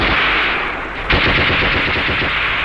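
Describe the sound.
Machine gun fire in a battle: rapid, evenly spaced shots form a rattling, sustained stream. The firing jumps louder partway through and keeps up its fast, regular rhythm to the end, without voices.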